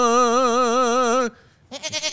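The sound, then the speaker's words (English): A goat bleating in a sickly-sounding way: one loud, long bleat with a rapid quavering tremble lasting over a second, a brief gap, then the start of a second wavering bleat. “What's wrong with that goat? That goat sounds a little sickly.”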